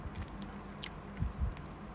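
Soft bites into curry-filled Lunch Pack sandwich bread: two muffled, low squishy thuds close together, quiet against a faint steady background.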